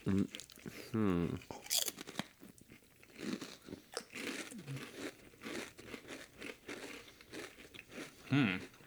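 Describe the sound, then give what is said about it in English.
Crunching of sour cream and cheddar flavored potato chips with a hint of tomato, a series of crisp, irregular crackling bites and chews, loud in bursts, with a voice audible at moments. “it kind of just tastes like your standard Ruffles sour cream and cheddar. A little bit of tomato.”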